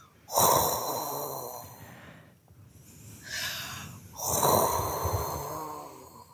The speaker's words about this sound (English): the breath is just coming up and touching the soft palate in the back of the throat on a sound that like this.